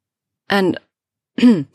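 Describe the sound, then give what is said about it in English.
A woman clears her throat twice in short, rasping bursts separated by a brief silence. “cleared her throat”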